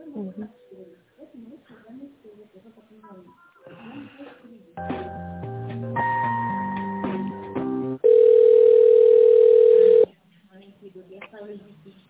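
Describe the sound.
Telephone tones play while a call connects. After speech, a stepped run of electronic tones gives way to a steady tone of about two seconds, and talk resumes afterward.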